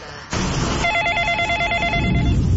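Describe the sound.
A telephone rings with a steady, warbling electronic tone that sounds as one continuous burst over a background hiss.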